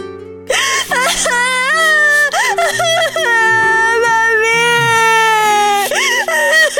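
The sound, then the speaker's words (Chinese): A daughter's crying in a musical drama: long, quavering wails and sobbing cries, loud and sustained with wavering pitch, over a low held musical backing. “不要哭了，女儿。”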